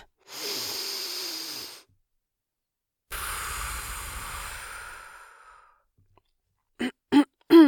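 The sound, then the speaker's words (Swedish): A deep breath: a breathy inhale of about a second and a half, a pause, then a long exhale that gradually fades. A few brief voiced sounds follow at the end. “Ta ett djupt andetag.”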